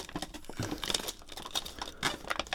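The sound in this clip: A plastic bag crinkles and rustles as packaged Sanuki udon noodles are handled inside it, a quiet, continuous crackling with no clear pauses.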